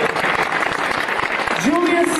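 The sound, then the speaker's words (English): An audience gives a round of applause after a student's violin pizzicato demonstration: a dense, even clatter of many hands at steady loudness. Near the end, a voice rises over the clapping. “Very nicely done. Give Sarah a round of applause.”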